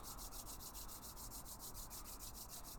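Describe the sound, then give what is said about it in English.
Palms rubbing briskly back and forth during a yoga practice, a steady run of rapid, even friction strokes with a soft whooshing hiss, continuous and alone. “From here, we'll begin to rub our palms back and forth,”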